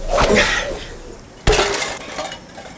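Tin cans clatter as a throw knocks over a stacked pyramid in a can-toss game. A couple of sharp metallic impacts stand out, each followed by a brief rattling tumble.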